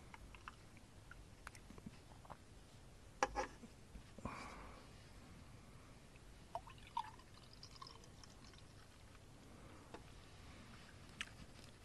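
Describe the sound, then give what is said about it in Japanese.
The rest of a drink is poured into a glass, a faint, quiet trickle of liquid with a few soft drips and small clicks over a hushed background. “完食よりもグラスの方がいいな。残りを全部注いでいきます。”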